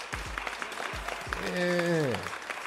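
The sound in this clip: Cued audience applause for a show opening: a steady, fairly quiet patter of clapping under a man's voice.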